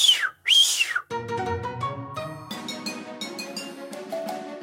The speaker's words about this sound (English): the dog has to respond to every little whistle stop command that you give that dog. I have a run whistle, which is